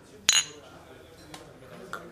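Beer glasses of Kölsch clink together in a toast in a pub, giving one bright, sharp clink followed by two much fainter glassy taps against a quiet background.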